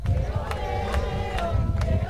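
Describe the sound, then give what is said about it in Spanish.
A crowd murmurs in the Vegueta district of Las Palmas de Gran Canaria while thousands wait along the Popemobile route for Pope Leo XIV. Voices mix over a low rumble, broken by a few regular soft thumps. “en plena ruta del Papa Móvil, donde miles de personas están esperando para ver a León XIV”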